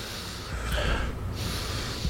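A deep, slow breath forms a soft, breathy rush of air that swells gently and holds steady, with no voices.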